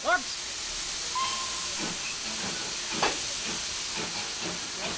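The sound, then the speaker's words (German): Steady steam hiss from a small red Belgian Cockerill industrial locomotive with a vertical boiler, a continuous broad hiss with a brief faint whistle-like tone and a few soft knocks and louder puffs. “Und dann verschwindet die kleine rote Kokeril, eine belgische Industrielok mit Stehkessel.”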